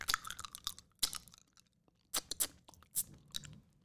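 Pop Rocks candy crackles while being eaten, heard as faint, crunchy chewing with several clustered bursts of sharp crackling separated by brief quieter pauses, with no talking.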